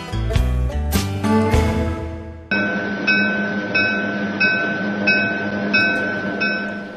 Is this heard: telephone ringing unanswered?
no